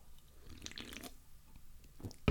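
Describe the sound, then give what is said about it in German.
A quiet sip of a drink: faint wet slurps and small squishy mouth sounds, followed at the very end by a short, louder knock. “Ich muss erstmal einen Schluck dafür trinken.”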